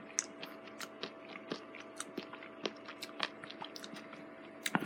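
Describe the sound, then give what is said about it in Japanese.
Crunchy chewing of convenience-store octopus with wasabi and stem seaweed, many sharp crisp bites and squishy mouth clicks in an uneven rhythm, close and moderately loud, with no talk. “じゃあ、ローソンのタコワサいただきます。”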